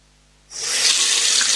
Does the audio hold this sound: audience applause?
no